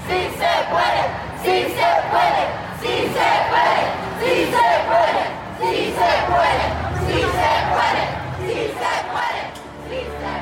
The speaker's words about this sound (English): The chant of Si Se Puede, or Yes We Can, is a rallying cry for justice, freedom, and dignity